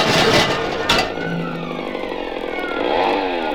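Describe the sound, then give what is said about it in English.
A motor scooter engine drones loudly and continuously with a buzzing, sputtering texture, and no voices over it. “There's a motor scooter”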